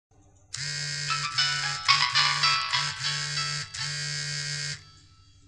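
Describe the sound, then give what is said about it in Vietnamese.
A mobile phone ringtone goes off during a recording session. A bright electronic melody of short stepped tones plays steadily and alone for about four seconds, then stops abruptly. “vào vòng thu sao lại không tắt chuông điện thoại thế?”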